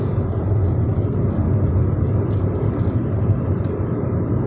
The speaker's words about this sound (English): I'm just driving down the street right now, driving down the road